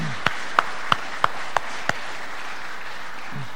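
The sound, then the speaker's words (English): A church audience applauds the worship team at a morning service: a steady wash of clapping, with a few sharp, evenly spaced claps standing out at the start. “Hey, can we just give the worship team a hand this morning?”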